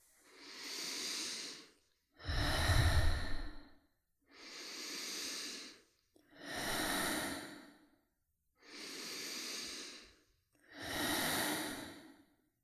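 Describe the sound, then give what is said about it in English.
Deep belly breathing, inhaling and exhaling, with six long, smooth breath sounds of a few seconds each, separated by short silences, in a slow even rhythm. “And exhaling out. And we enter our final round, inhaling full belly breaths.”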